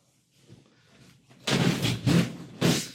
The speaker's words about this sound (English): That explosion hurt.